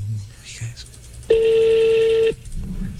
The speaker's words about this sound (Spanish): Márquele, márquele, que yo sé que sí ha contestado.